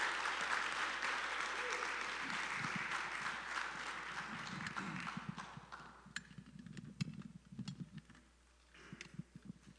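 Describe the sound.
A church audience applauds in praise of the Lord with a dense wash of clapping that gradually thins into sparser, uneven claps, with voices mixed in.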